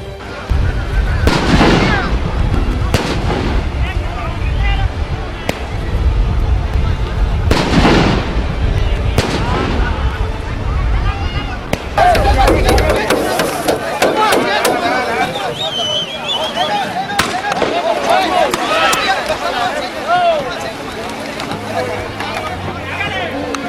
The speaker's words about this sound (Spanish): un momento a otro empezaron a sonar, sonaron dos bombas de aturdimiento y luego vinieron gases